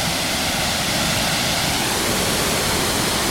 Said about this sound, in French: Voilà, c'est le son de la cascade. Un très très beau coin qu'on vient de découvrir. Donc la cascade fait environ une quinzaine de mètres de hauteur.